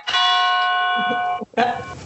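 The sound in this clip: A church bell ringing at a church in the Drôme: a bright, sustained metallic tone rich in overtones, then a brief gap before another strike rings out.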